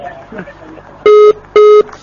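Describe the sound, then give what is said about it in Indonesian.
Two loud, steady beeps of a telephone tone as a call drops mid-conversation, each lasting about a quarter second with a short gap between, following faint, muffled background sound. “mohon maaf terputus sambungan telepon”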